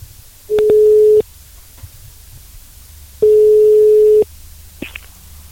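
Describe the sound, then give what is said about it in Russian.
Telephone ringback tone heard while a call is being dialed, before an answer: two long, steady, mid-pitched tones separated by a quiet pause of about two seconds, with faint clicks on the line. “Ну что, первой жертвой будем звонить, посмотрим, дозвонимся с первого раза или придется дублировать.”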